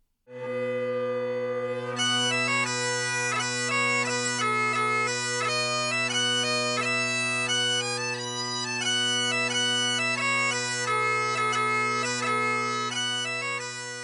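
Bagpipes, an instrument blown into through a bag squeezed under the arm and fitted with several pipes, play a tune: steady low drones sound continuously beneath a bright, busy chanter melody. The playing is loud and unbroken, with no talking.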